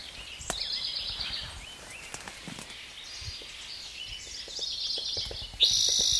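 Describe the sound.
A recorded bird call: high, rapid chirping trills in two short bursts, separated by a quieter stretch of faint background noise.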